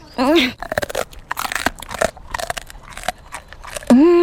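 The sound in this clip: Crunching on a bravery treat given to a small patient after a doctor's visit, with many rapid, crisp crackling bites in quick succession. Brief voices are heard at the start and the end.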